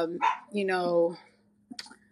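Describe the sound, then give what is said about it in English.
A dog barks and yips in the background in a few brief, voiced bursts with a whiny edge. It is the speaker's newly adopted second dog. “So I had to get a dog, and I just got another dog. So you probably can kind of hear him in the background.”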